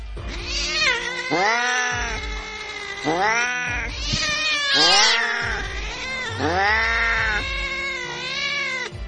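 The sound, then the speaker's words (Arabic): Cats meowing and caterwauling from inside a closed room, a string of loud, drawn-out, wailing yowls that rise and fall in pitch, one after another with short gaps. “الصوت اتغير لصوت قطط ومعاها انا بدأت اقلق”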